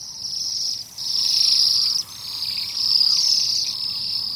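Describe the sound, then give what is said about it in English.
High, thin trilling calls from a flock of birds in a winter orchard form a steady, continuous shimmer, with brief dips in loudness before it swells again. “you have a bird that seems to have sprung from a fine painter's palette. Quickly, the flock is off again to adorn another orchard's winter branches.”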